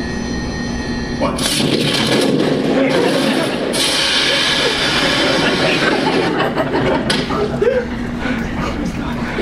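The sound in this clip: Engines start up to ten percent thrust: a sudden, broad, loud roar surges in after a quieter opening and holds steady and rumbling to the end.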